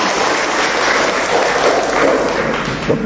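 An audience applauds a woman invited up to share before the church community, a dense, steady clapping that holds at an even loudness for the whole span.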